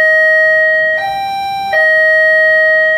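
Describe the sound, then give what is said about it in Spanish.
An electronic doorbell rings with loud, steady sustained tones that step up to a higher note and then drop back down, three even notes in a row with no talking. “Ese debe ser... ¿Cómo suena ese timbre? Yo creo que lo escucha en su casa y tiene un timbre similar, duda por el volumen.”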